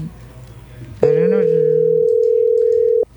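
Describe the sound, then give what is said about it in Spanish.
A telephone rings out on an outgoing call: one steady, loud ringback tone lasting about two seconds follows a moment of talk, with a voice briefly overlapping its start. “A ver, ahí se fue. Adriana, estamos llamando a Adriana.”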